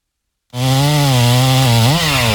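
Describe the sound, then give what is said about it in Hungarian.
A chainsaw cuts down a giant pine tree in the neighbours' yard. After a moment of silence, the saw bursts in with a loud, steady, buzzing drone, and its pitch rises briefly near the end. “Vigyázz! Dől a fa! Hallottad? A szomszédék spórolni akartak, és maguk kezdték el kivágni az udvarukban lévő óriási fenyőfát.”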